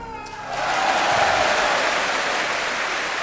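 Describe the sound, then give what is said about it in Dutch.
Applause follows a brass performance by the London Philharmonic Orchestra: a soft tonal sound at the start fades as a broad, steady wash of clapping swells up and holds at an even level to the end. “Maar ik vind die prestatie fit op 4 helemaal zo mooi afgesloten te hebben. Is een applausje waar, niet waar?”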